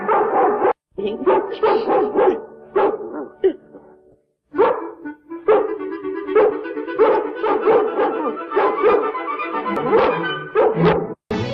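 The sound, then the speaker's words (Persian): Dogs barking: many sharp barks and high yips in an irregular, overlapping run, loud and alone, with a brief pause near the middle before the barking resumes. “بعضی شبا مثل این که صدای واق واقشون رو میشنوم”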